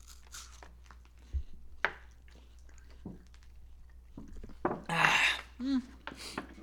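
Someone crunches and chews a Nutty Buddy ice cream cone during a taste test, making scattered sharp bites and mouth noises of uneven loudness, with a louder burst of crunching near the end.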